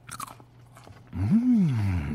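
Crunchy biting and chewing of coconut cashew snacks: a few sharp crunches up close, then a low, rising-and-falling hummed vocal sound over continued chewing.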